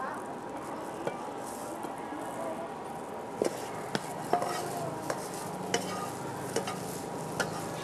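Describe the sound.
Sizzling stir-fried pad see ew noodles being scooped slowly from a hot pan, with a steady crackling fry and several sharp utensil clicks against the metal.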